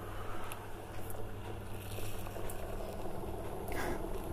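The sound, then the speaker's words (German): Water coming to the boil in a pot of Maultaschen gives a steady, quiet bubbling hiss that runs evenly throughout with no talking. “Und unsere Maultaschen werden gekocht. Das Wasser kocht auf.”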